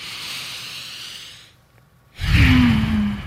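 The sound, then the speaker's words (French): A person does a deep breathing exercise, one meant to be safe even while driving: a long airy breath, a brief silent pause, then a louder, fuller sighing exhale. “on fait un exercice de respiration profonde et vous pouvez le faire même en conduisant votre auto.”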